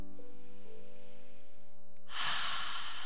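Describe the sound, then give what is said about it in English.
A deep breath rushes in as a single loud, breathy whoosh near the end, following a stretch of soft, steady humming drone. “take this moment to breathe in deeply”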